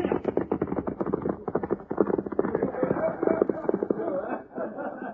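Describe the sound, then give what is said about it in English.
Horse hoofbeats in a 1938 Lone Ranger western radio drama as a rider gallops away: many rapid, steady clip-clop strikes in an even rhythm throughout. “There goes young Bob Ryan now, riding away with an Indian.”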